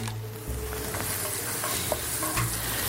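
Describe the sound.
Chopped onions sizzle in a hot pan, a loud, steady frying hiss throughout, with soft scraping and stirring sounds mixed in.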